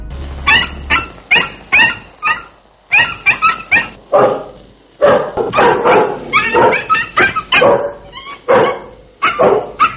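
A dog barks loudly and repeatedly, many sharp barks coming in quick bursts separated by short pauses, with no voices over them.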